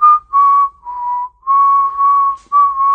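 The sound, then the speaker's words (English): Whistled speech carries across the rugged mountain peaks of Mexico: a series of clear, pure whistled tones, each held briefly with slight pitch bends and short gaps between them, like phrases in a conversation, with no talking. “I hear a whistle floating across the rugged peaks. Listen carefully. You may overhear a conversation.”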